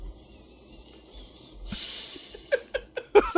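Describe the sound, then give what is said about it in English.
A strong, sharp inhale through the nose comes as a breathy hissing sniff lasting under a second. A thin, steady high whine comes before it, and a few short, crisp clicks follow. “It's the inhale that you want to really focus on.”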